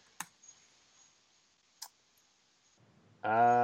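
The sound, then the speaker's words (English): Someone types in a phone number: a few sharp, separate clicks spaced out over a few seconds, then a loud steady harmonic tone that holds to the end. “I am about to type that in.”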